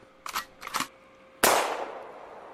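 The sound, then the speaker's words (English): A gunshot sound effect: two short, softer bursts come first, then one sharp, loud bang with a lingering, fading tail. “All right, we're going to find another gun. That just sounds weak.”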